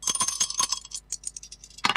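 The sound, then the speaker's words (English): Dice are thrown in a rapid clatter of bright, clicking hits that thin into lighter rattles, then one final sharp knock. “Let's throw the dice and see which one we're going to play.”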